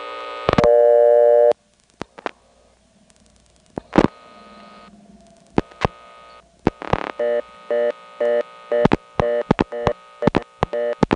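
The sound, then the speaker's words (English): A telephone busy signal sounds over a blocked-level tone on a callback circuit: a steady tone burst and sharp clicks, then many evenly spaced on-off beeps repeating in a regular cadence, punctuated by loud clicks. “dial a blocked level, and then superimpose the busy signal on top of it”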